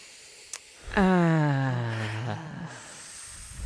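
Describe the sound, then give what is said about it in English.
A single deep, drawn-out belly exhale during a guided deep-breathing exercise, voiced, with a tone that falls steadily before fading over a couple of seconds. A brief sharp tick comes just before it. “Breathe in the belly. Perfect. Sounds like steam escaping.”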